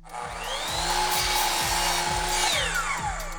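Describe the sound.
A power saw set to a 45-degree angle cuts through its workpiece with a loud, continuous whining buzz that holds steady throughout, its tone shifting slightly as the blade works through the cut.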